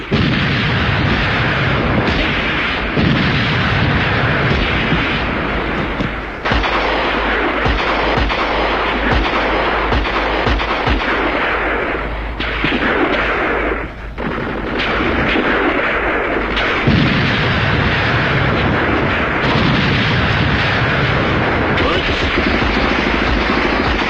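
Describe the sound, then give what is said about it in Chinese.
Heavy artillery cannon fire and gunshots in a wartime battle scene form a dense, continuous roar of overlapping blasts and rapid bursts, loud throughout with no pause. “炮声震地，杀声冲天”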